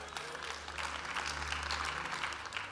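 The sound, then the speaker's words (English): Audience clapping breaks out during a talk about rescuing children, a dense, even wash of many hands that holds steady throughout over a faint low hum. “I love that the people started clapping when we talked about rescuing children”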